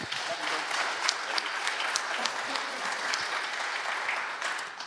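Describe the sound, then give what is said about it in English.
Audience applause for a preacher at a morning church service in an auditorium: dense, even clapping from many hands, sustained at a steady level for about five seconds. “So put your hands together for him.”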